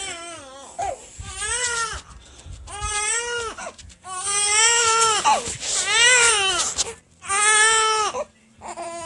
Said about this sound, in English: And that's about the time when this baby starts to wake up